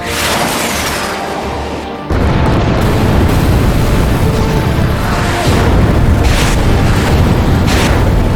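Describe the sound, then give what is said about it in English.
Tomahawk missiles striking enemy SAM turrets in a video game: a loud explosive boom breaks in and rolls into a heavy, sustained rumble with further blasts. “Tomahawks away. Now target the SAM turrets. Enemy SAM turrets locked. Duh. Fire second wave of tomahawks.”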